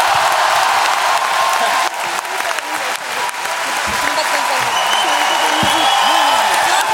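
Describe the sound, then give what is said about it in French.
An audience gives loud, sustained applause, a thick wall of clapping that stays strong throughout, with voices talking over it in the latter half. “Il s'agit de Maxence. Vous pouvez l'applaudir.”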